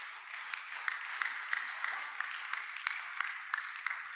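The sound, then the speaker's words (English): Congregation clapping during a Sunday church service: faint, even, rhythmic claps on a steady beat over a soft wash of further clapping. “Clap for yourself.”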